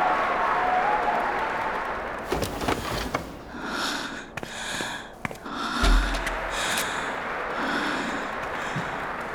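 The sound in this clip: Audience cheering and applause fill a radio drama as two players return to center stage after a rookie challenge match, a dense, continuous crowd roar with brief sharper bursts throughout.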